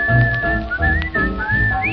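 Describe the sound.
Whistling carries a wavering melody along with a song's band accompaniment, a clear, bright tone gliding up and down in phrase after phrase and finishing with a quick rising sweep.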